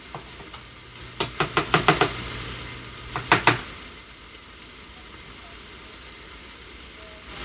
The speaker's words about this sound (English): I know enough about spices, so I'm going to stir this mixture up.